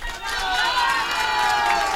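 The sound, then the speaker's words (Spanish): A crowd applauds and cheers for couple number three in a contest, with whooping voices over steady clapping that swells quickly and stays loud. “vamos con el último aplauso para la pareja número 3.”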